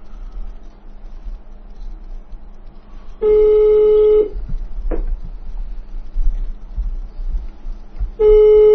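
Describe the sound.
Ringback tone of an unanswered telephone call waiting for pickup. Two long, steady electronic tones sound over faint line hiss: one lasts about a second, and the second begins at the very end.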